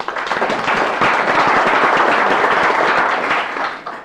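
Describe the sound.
Audience applause in a legislative chamber welcoming a guest seated in the gallery, dense continuous clapping that holds steady throughout and tapers slightly at the very end.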